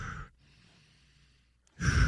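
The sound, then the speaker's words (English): Deep breaths drawn before eating a hot dog: loud, breathy bursts at the start and the end, with a near-silent gap between them. “Give me 3 deep breaths.”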